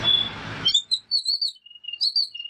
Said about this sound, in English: Oh, it's ear piercing. The sound of the babbler. I heard it right at the end there where it got really chatty.